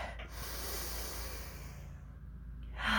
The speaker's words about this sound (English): So let's take in a nice deep breath together.